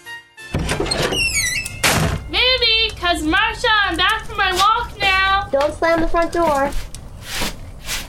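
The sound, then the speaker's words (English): A front door opens with a dull thunk and a rattle near the start. Voices follow, carrying on over most of the remaining stretch. “The front door.”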